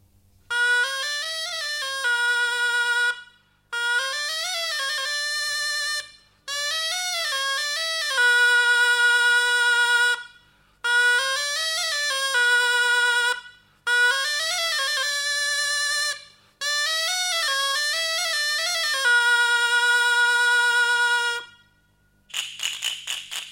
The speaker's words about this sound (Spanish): una lengüeta simple, y al soplar pues produce un sonido muy característico. Se acompaña con el rabel, es una grabación que hizo García Matos